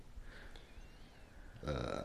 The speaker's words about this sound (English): So, burp. Nice burp.